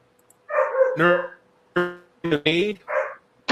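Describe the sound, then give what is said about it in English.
A pet dog barking indoors: a quick series of sharp, fairly loud barks and yelps in uneven bursts, mostly close together, with brief pauses between them. “And who's barking? That's my dog.”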